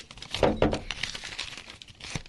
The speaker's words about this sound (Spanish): Doblamos ya los últimos papelitos de estas últimas personas que leímos pues sus comentarios.